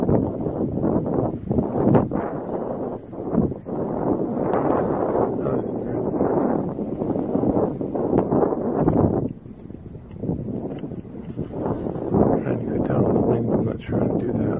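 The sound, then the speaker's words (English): Wind buffets an outdoor microphone in a continuous, loud, low rumbling roar with uneven gusts, briefly easing partway through before building again. “I'm sure the wind is going to fill this tape as much as my voice.”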